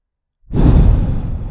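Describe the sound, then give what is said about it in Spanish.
A single deep, breathy breath taken as part of a calming exercise for anxiety: after a moment of silence, a sudden airy rush swells and holds steadily, heard alone with no voices. “Vas a respirar”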